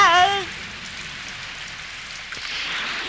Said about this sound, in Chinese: 又下雨了，也许台风会来耶！